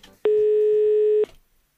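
A telephone rings for an incoming call: one sustained, buzzy electronic tone about a second long, starting and stopping abruptly, alone over faint background noise.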